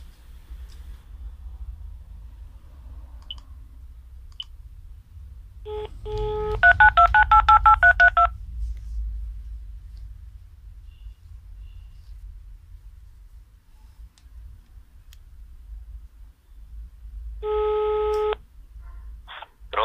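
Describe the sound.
Touch-tone telephone dialing, a quick run of several short multi-pitched beeps over a low background rumble, then after a long pause a steady telephone busy-signal tone sounds.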